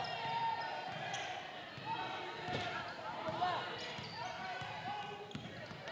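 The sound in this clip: Basketball dribbling during a women's high school game, with many quick bounces on the court under steady commentary and a busy gym background.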